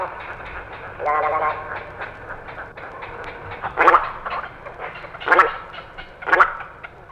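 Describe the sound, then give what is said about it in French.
Eurasian teals call on a pond with flute-like whistles. A few louder bursts stand out over a low background while a voice speaks. “D'autres chanteurs de passage occupaient ces étangs. Les petites sarcelles d'hiver se reconnaissaient à leur appel flûté.”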